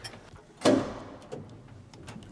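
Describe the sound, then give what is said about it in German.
Old elevator doors, still in nearly original condition, latched by hand: one loud, sharp metallic clunk with a ringing decay, followed by a few faint small clicks. “Der Aufzug befindet sich noch fast im Originalzustand. So, Türen müssen wir von Hand verriegeln.”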